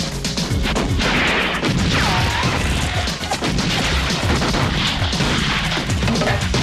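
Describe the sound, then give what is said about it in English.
Gunfire erupts in a shootout among weapons crates, with many rapid, irregular shots and sharp crashing impacts packed densely together and staying loud throughout. “Dent's men shoot at Axel. Taggart and Billy fire back at them.”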